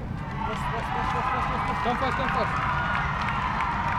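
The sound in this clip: A crowd cheers and claps at a 100-metre sprint during a police academy athletics event, a dense, steady roar of voices and applause with someone talking over it.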